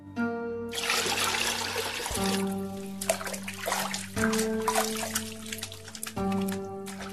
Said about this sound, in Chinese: 来人呐，打盆水来让我洗手。